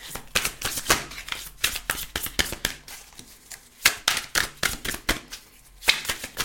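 An oracle card deck is shuffled by hand until a few cards drop out. Repeated riffling and slapping bursts come in an uneven, lively rhythm, with many quick papery rustles between them.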